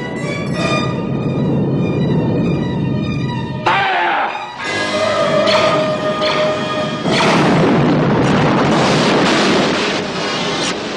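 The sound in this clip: Sci-fi weapon fire strikes a starship's shields: a couple of heavy booming impacts break through sustained electronic tones, the loudness dipping briefly after the first hit before a dense rumbling wash returns.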